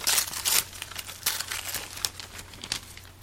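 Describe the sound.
Paper crinkles as a Christmas gift is unwrapped, with loud, rustling crackles in several bursts that come and go unevenly over a few seconds, heard with no talk.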